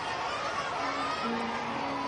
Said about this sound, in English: Fastball fouled out of play into the crowd, and you can hear a lot of the young students in the background as that goes foul.